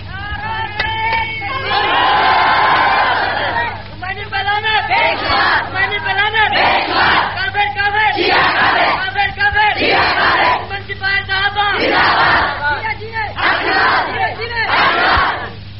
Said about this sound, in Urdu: او میاں میرے جیوے جیوے کا نعرہ نہ لاؤ، ڈھیر سارے لوگوں یہ بھی غصہ لگتا ہے جی